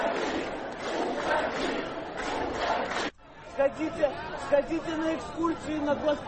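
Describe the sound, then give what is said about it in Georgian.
Protesters chant slogans at a protest rally: a dense wall of crowd voices gives way after a brief drop to rhythmic, voiced shouts from many people together. “წადი ამ შეძახილებით, შეძახილებს სკანდირებდნენ საპროტესტო აქციის მონაწილეები.”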